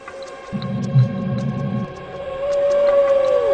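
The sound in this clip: Whale vocalization from whales feeding together on a school of krill or fish. A low rumbling opens, then a sustained tonal moan bends downward at the end.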